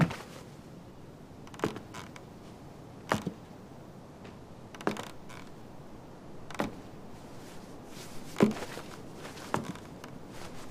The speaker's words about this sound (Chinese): 那行，那您先休息休息，我们把床给您搬过去，收拾收拾。 来来来来来，动手动手，